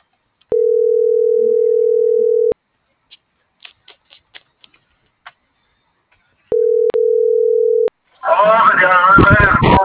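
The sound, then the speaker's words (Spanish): Telephone dial tone while calling the operator, a steady hum lasting about two seconds, then a series of short dialing clicks, the tone returning briefly, and a voice talking at the end. “Voy a marcar al operadorcito a ver si me contesta.”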